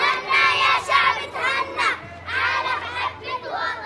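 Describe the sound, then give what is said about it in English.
Syrian children playing games in a former schoolyard, now a center for displaced families: a crowd of young voices shouting and calling out in excited, overlapping bursts. “The sound of Syrian children playing games in the schoolyard, but this isn't a school anymore.”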